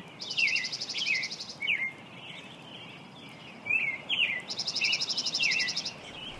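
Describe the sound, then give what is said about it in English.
Songbirds migrating past a mountain in Portland, Oregon at daybreak chirp and tweet in quick, high, bright bursts, with a short pause between bursts and a longer quiet stretch in the middle, heard alone over faint background hiss. “The sound of Portland, Oregon is migrating songbirds on Mount Tabor at daybreak.”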